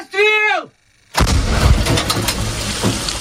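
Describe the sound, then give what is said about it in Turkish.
A single heavy howitzer shot from Ukrainian artillery firing on Russian positions in the Donetsk region: a sharp, loud blast that rolls into a long rumbling tail. A short voice is heard just before it, followed by a brief silence. “Cephede ise Ukraynalı topçular Donetsk bölgesindeki Rus mevzilerini obüslerle vurdu.”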